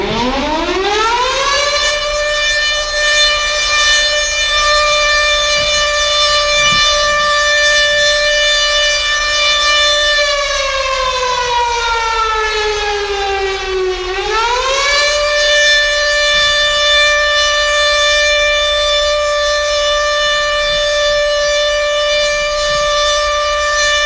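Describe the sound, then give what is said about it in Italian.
An air raid siren wails loudly and alone, rising steeply in pitch at the start and holding a long steady howl. It then sinks slowly, swoops back up and holds again. “Se fidiamo solo delle note delle sirene, ma no quelle che te incantano, quelle che te svegliano.”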